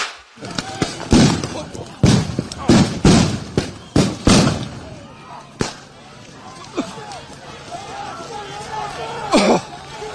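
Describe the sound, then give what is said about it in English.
Rubber bullets and gas canisters fired by federal agents at a protest in North Minneapolis, heard as several sharp, loud cracks and bangs in the first seconds, with agitated voices and crowd noise continuing afterward. “federal agents shot rubber bullets and released gas canisters in North Minneapolis as protesters gathered after a federal agent shot a migrant in the leg. I want to play just a little bit of the audio from the scene.”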